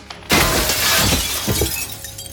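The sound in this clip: A body crashing through a glass coffee table: a sudden loud shatter followed by a sustained spray of breaking glass and tinkling shards that lingers to the end.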